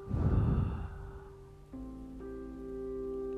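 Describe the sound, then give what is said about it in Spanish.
One breathy whoosh, as in breathing in through the nose and out through the mouth during a guided breathing exercise, is followed by soft, sustained musical tones. “Vas a inhalar por nariz y exhalar por la boca. Inhalo uno, exhalo dos.”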